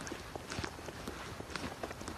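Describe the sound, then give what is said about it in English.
Faint, quick footsteps of a person walking fast, with many light steps tapping in a brisk, fairly even pace. “I'm trying to walk fast.”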